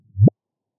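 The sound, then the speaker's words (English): Gravitational-wave chirp from a single merger of two black holes, sonified as one short, loud whoop that starts as a low rumble and sweeps sharply upward in pitch before stopping abruptly. “I'm going to start by playing you the sound of a single black hole merger. So we're going to listen to two black holes.”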